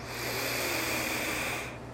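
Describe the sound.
A deep breath in during a breathing exercise, one long, steady, airy inhale that holds evenly for most of the moment and then stops, with no talk.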